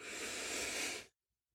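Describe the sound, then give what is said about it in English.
A big, deep breath in, taken during a guided breathing pause: a steady airy hiss lasting about a second that cuts off abruptly into silence. “So just stop what you're doing and just take a big deep breath in”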